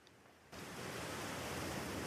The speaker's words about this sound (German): was für eine schöne Brise hier am Strand.